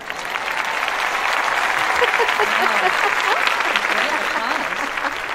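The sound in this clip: A studio audience applauds to welcome a guest onto a show, a steady, full burst of clapping with voices talking over it.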